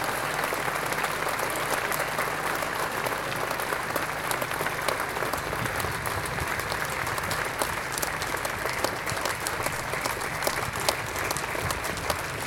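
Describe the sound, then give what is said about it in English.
Audience applause at a statue unveiling ceremony at Old Trafford: steady, dense clapping from a crowd that keeps an even, fairly loud level throughout, with no clear voices above it. “Let's hear it for them, ladies and gentlemen.”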